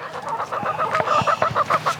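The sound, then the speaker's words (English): Chickens cluck in a steady stream of short, throaty calls and higher squawks, with many overlapping notes and fairly loud, busy chatter throughout. “The chickens. Hey, chicks. It's okay, chicks.”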